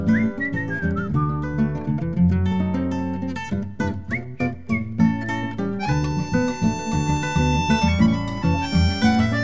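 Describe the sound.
A person whistles bird-like notes over full, loud music, with high clear tones that glide and repeat in short phrases throughout.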